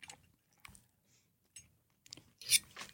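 Tender meat braised with red wine and small carrots is chewed during a tasting. Faint, moist clicks and soft crunches come at irregular intervals, with a slightly louder burst near the end and no talk.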